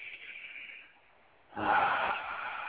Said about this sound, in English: Now move up to your solar plexus, which is your tummy. Take a deep breath in.